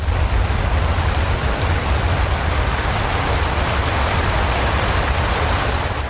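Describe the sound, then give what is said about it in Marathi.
A river waterfall on the Pravara crashes down forcefully, a loud, steady, unbroken roar of rushing water with no other sounds. “Pravara नदीवरचा हा धबधबा अगदीच बेफाम होऊन कोसळत होता.”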